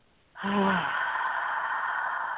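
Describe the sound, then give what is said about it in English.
A person exhales slowly through the mouth during a yoga breathing exercise. The long, breathy release starts suddenly with a faint voiced edge, then settles into a steady, airy hiss that lasts about two seconds. “releasing the breath through the mouth.”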